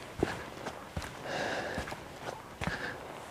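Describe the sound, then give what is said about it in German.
Footsteps on a raised boardwalk about a metre high in a forest of small spruce or fir trees, a few soft, irregular thuds with faint rustling between them. “Jetzt gehe ich auf einem Steg, der ist so einen Meter erhöht.”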